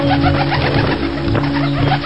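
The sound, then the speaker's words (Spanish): Pigeons cooing in a bell tower, a dense, continuous mass of overlapping throaty coos that stays fairly loud and even throughout. “Mire, ¿por qué no se sube al campanario? Mire, está alto. No, al campanario no. No me gustan las palomas.”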